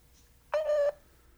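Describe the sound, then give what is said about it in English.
A voicemail tone from a Google phone line: one short, clean electronic beep at a mid pitch, lasting about a third of a second, with quiet before and after. “The Google subscriber you have called is not available. Please leave a message after the tone.”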